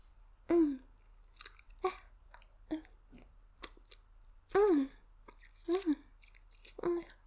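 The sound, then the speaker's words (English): Wet licking on a face: a string of quiet, moist slurps and smacks at uneven intervals, several joined by a short hummed vocal sound, over a faint steady hiss. “Now, I'll start licking your face.”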